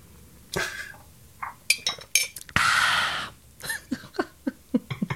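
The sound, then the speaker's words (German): A drink is sipped from a glass, with a few sharp glassy clinks, one sustained slurping sip and then a series of short clicks and soft mouth noises, with no talking. “Ich trinke einen Schluck, liebe Hörwiesen. Und da wir uns dazu entschieden haben, diese Folge so gut wie nicht zu schneiden im Fragenteil, werdet ihr das jetzt leider hören.”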